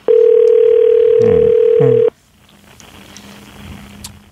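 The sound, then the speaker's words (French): A steady telephone ringback tone on an outgoing call, one long, loud, even beep lasting about two seconds with brief voices under it, then quiet low background noise. “Bon, donc on appelle”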